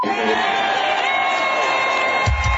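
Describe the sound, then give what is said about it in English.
Crowd cheering wildly at a Metallica show, a dense continuous roar of shouts and whoops that holds steady throughout, with a heavy low thump near the end. “And the crowd goes wild.”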